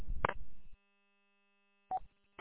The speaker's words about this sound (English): Hold on, I gotta grab this phone.